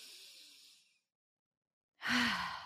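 Slow breathing in and out as part of a guided breathing exercise: a soft, airy inhale, a second of silence, then a louder, sighing exhale.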